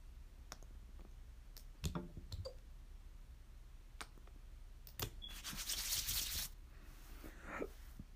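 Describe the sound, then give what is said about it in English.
Hair oil is rubbed into a section of hair, making soft scratchy friction and scattered small clicks. A louder, denser spell of rubbing comes near the end. “And I'm going to rub in some of my sister's oil. Just on the section I did.”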